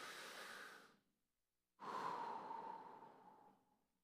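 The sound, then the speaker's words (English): A deep breath drawn in and then let out by a group following a prompt: a soft, airy inhale, a short silent pause, then a longer, fuller exhale that fades gradually. “would you just take a deep breath with me and then let it out?”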